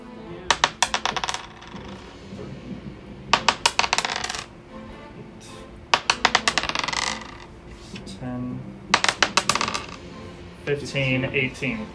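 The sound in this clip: Dice rolling on a table during a tabletop role-playing game, several short bursts of rapid, bright clattering clicks, with people talking between the rolls.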